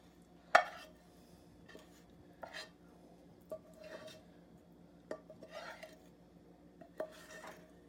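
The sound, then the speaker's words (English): A wooden spoon scrapes soft, caramelized brown onions from a frying pan into a split pea and potato mixture, producing a faint, irregular series of knocks and scrapes against cookware, one sharper clack near the start. “I have a wooden spoon, I'm gonna dump all the caramelized, really soft brown onions into our split pea potato mixture.”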